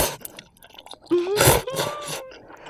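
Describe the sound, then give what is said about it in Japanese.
Finely cut tteokbokki Korean rice cakes are chewed with soft, moist clicks, then a drawn-out voiced murmur rises over continued mouth sounds before fading. “小さく刻んだトッポギも韓国料理食べてるって感じだよな。”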